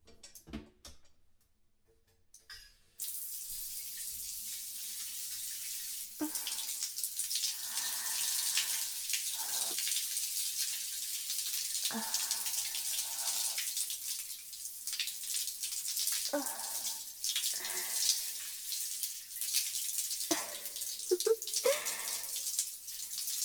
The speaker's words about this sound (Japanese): 綺麗になりましたよ。流しますね。